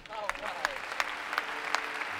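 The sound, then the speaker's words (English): Audience applause at a live radio theater taping in a theater in Cincinnati, Ohio: dense, steady clapping fills the whole clip, with sharper claps standing out now and then. “Well, I'll lead the applause for that.”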